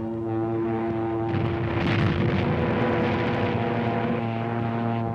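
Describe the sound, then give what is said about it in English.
A German Stuka dive bomber diving and releasing a bomb: a loud, steady propeller-engine drone with a strong harmonic hum, and a rough, noisy roar that swells over the engine through the middle before easing. “There's a Nazi dive bomber letting one go.”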